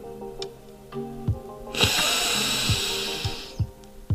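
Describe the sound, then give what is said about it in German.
A deep breath during a guided breathing exercise, heard as a long, airy hiss lasting about two seconds over soft, low background music. “Und wir beginnen mit einer Einatmung und dann 5 Sekunden anhalten, ausatmen.”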